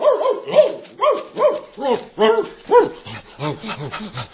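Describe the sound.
A shepherd's loyal dog barks in a quick, steady run of many short, high yelping barks, each with a bright, ringing tone, repeating at an even rhythm throughout.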